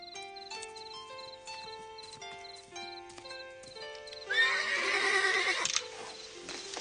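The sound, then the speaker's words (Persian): A swift horse, exhausted after a hard run, gives one loud whinny lasting about a second and a half. It rises over a background of soft melodic music. “بله اسب تیز پاییه، حالا دیگه استراحت کن، تمام شد.”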